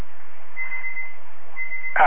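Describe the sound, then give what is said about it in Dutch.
Electronic beeping alert tone: two sustained, steady high beeps, one longer and one shorter, over constant background hiss, followed by a brief louder burst at the very end. “Ja, ik moet even dit piepetje even naar schakelen, mensen, momentje. Zo, dat piepetje dat was niet meer nodig.”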